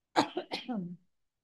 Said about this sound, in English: Uh-oh, another cough.